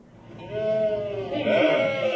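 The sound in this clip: Several people imitate sheep bleating during a nativity play rehearsal, their voices overlapping. The drawn-out, wavering bleats grow louder toward the end.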